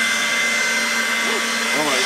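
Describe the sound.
A 0.73-horsepower hair dryer runs on a low setting, giving a steady, loud whirring rush with a constant motor hum throughout, and a brief voice sound comes near the end.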